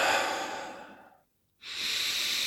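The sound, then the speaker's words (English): A big, deep breath through the mouth: a long, airy exhale that fades out, a brief silence, then the hissing start of a strong inhale. “Big deep breaths, oxygenate that body. You're getting the oxygen in, and you're going to dispel that carbon dioxide at the same time. Three or four big deep breaths.”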